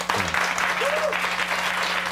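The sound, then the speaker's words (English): Audience applause at a political speech, a dense, steady clapping from a crowd that stays even and loud throughout the short clip. “The audience applauds that.”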